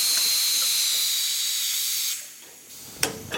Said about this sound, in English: He speeds up cooking time in a pressure cooker